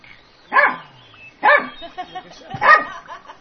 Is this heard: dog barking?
yes